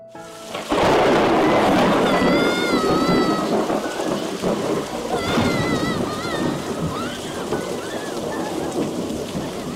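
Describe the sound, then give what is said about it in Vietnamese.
A deafening thunderclap breaks from a clear sky after a brief quiet, loud enough to seem to shake a building, then settles into a long, heavy rumble with a rain-like hiss. “Bầu trời quang đãng cũng đột ngột vang lên một tiếng sấm rền đinh tai, cả tòa nhà như rung chuyển.”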